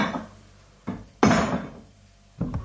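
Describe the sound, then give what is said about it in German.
Clatter of a small plate being picked up in a kitchen during cheese making: a few short knocks and clinks of crockery, one louder and longer rattle in the middle, heard alone without talk. “Dazu nehme ich einen kleinen Teller.”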